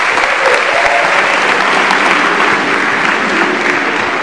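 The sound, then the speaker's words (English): Audience applause for President Falwell at a Liberty University gathering, dense and steady clapping from a large crowd that fills the whole stretch without letup. “Hey, can we put our hands together for our president, President Falwell?”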